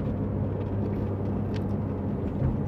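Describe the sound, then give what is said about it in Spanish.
A car being driven, with a steady low rumble of engine and road noise that holds even and continuous with no distinct events. “Estoy conduciendo”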